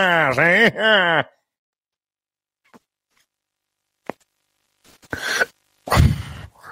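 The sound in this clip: A man draws on a cigar and breathes the smoke, with breathy, rasping inhales and exhales in short bursts after a brief moment of talk and a quiet pause.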